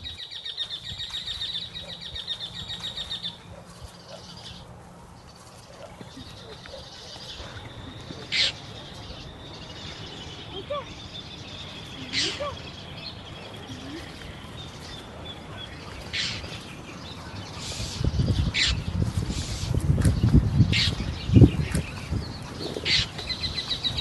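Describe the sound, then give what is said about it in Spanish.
Songs of local wild birds were recorded outdoors. Sparse, faint chirps and short calls sound over a low background rumble, with a steady high tone early on and louder low noise toward the end. “Ahora van a escuchar todos los sonidos que grabamos de las aves.”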